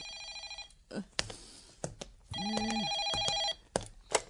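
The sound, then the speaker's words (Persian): A telephone rings in two bright, buzzy electronic bursts, the second one longer, with short sharp clicks and taps scattered between and after them. “به جای اینکه با من دهن به دهن بذاری اون تلفن رو خفه کن.”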